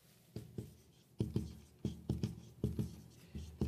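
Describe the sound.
Drawing on a board: many short, scratchy strokes that come in quick bursts of two or three with brief pauses between them, quiet and without talk.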